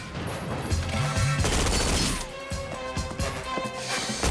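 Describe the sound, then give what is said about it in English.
Submachine gun fire rips through a chaotic action scene: dense, loud bursts mixed with crashing, smashing impacts for the first two seconds, then scattered sharp cracks and thuds. “Peoples arrives with a submachine gun, and Shaft and Carmen run for it.”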